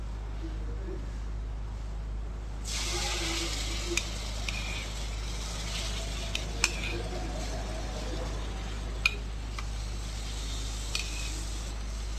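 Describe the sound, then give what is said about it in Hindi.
Gram flour and tomato puree sizzle in a pan and are stirred. After a quiet start, a steady frying hiss sets in, broken by several sharp clicks and scrapes of the spoon against the pan. “बेसन लगभग भुन गया है। अब इसमें 10-12 चम्मच या जरूरत के अनुसार प्यूरी डालेंगे।”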